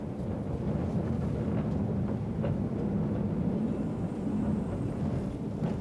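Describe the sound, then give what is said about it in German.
A glass-roofed panoramic train runs along a scenic rail line out of Munich, making a continuous low, even rumble with no distinct events and no voices. “Die malerischen Strecken im Gleisnetz der Bahn, die fährt der Gläserne ab.”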